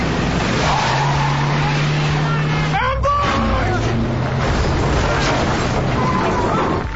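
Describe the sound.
Engine rumble of a military lead vehicle driving at night: a steady low drone with road noise that continues throughout.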